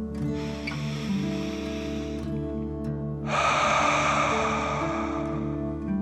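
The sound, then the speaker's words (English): Deep breathing in and out during a calming meditation for children: two long, airy breaths, each a soft rushing swell lasting a couple of seconds, over a steady sustained tonal backing. “Okay, deep dragon breath in and out. Again, deep dragon breath in and out.”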